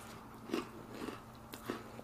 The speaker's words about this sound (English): This is a little crispy for me tonight. I feel like this cookie's overcooked a little bit.